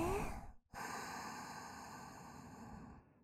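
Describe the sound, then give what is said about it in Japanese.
A person exhales slowly during a guided breathing exercise: a short breath, a brief pause, then one long, soft, airy exhale that stays even for over two seconds before fading out quietly. “吐いて、ゆっくりだよ、焦らずゆっくり。”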